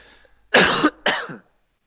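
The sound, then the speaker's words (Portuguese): A person clears their throat in two harsh, cough-like bursts, the first longer and louder, the second shorter, with no talk around them. “arranhar a garganta”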